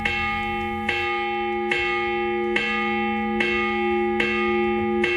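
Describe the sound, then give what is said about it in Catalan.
A church bell tolling a regular, rather high-pitched signal, seven evenly spaced loud strikes, each ringing on with long sustained overtones that overlap into the next stroke. “jo ara et posaré un toc de campana i tu m'hauràs de dir què vol dir aquest toc de campana”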